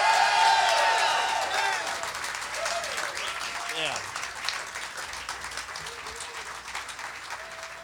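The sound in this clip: Applause and cheering from a concert audience welcoming the Flaming Lips on stage: a dense, steady roar of clapping with whoops, loudest at the start and easing slightly over time.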